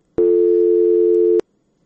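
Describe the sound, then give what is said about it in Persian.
A single steady telephone busy tone sounds after a listener's phone call drops, one loud, even beep of a little over a second, with silence on either side. “متاسفانه که تماس این شنونده ما قطع شد.”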